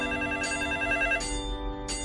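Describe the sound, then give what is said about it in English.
A telephone rings with a steady, bright, metallic tone that holds throughout, with three sharper bursts spaced at regular intervals. “Doesn't anyone around here know how to answer a phone? I always have to be the one to go.”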